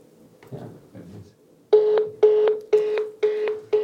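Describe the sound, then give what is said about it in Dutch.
A telephone is dialed for a call. A few faint, soft presses give way to five loud, evenly spaced steady tone pulses at a low-mid pitch, with the last pulse cut off and no talk. “Dus ik ga nu bellen en ik hoop dat hij opneemt.”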